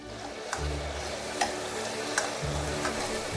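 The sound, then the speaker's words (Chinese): Pork belly and abalone stir-fried in a wok with oil, scallion, ginger, garlic and soy sauce: a steady sizzle broken by a few sharp spatula clicks, over a low continuous hum. “然后将五花肉鲍鱼依次倒入锅内，翻炒一会儿”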